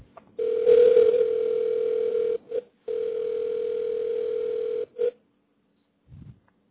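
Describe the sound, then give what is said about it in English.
A steady telephone dial tone during an attempt to reconnect a call: a constant hum-like tone in two long stretches of about two seconds each, separated and followed by brief blips, then near silence with a faint low sound. “we're just trying to reconnect to Tony Pinigallian here.”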